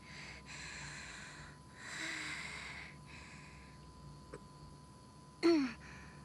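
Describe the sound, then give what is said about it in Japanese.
A person breathes in deeply to calm down: faint soft breaths at first, then one sharp, louder intake of air near the end. “いや、落ち着いて。私深呼吸して。”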